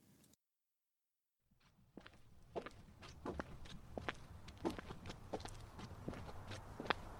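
Footsteps on a walk, an uneven series of soft footfalls that starts after a short silence and continues steadily at moderate loudness to the end.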